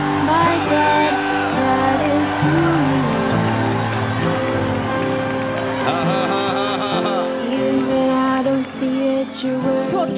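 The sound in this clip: A church audience shouts loudly in praise. Many voices yell and whoop together in a dense, unbroken roar from start to end.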